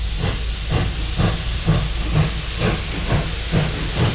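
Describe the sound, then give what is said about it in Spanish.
A steam train at a station gives off a loud, steady steam hiss, with rhythmic chuffing pulses that repeat evenly throughout. “vamos a subirnos al tren, que ya ha llegado la estación”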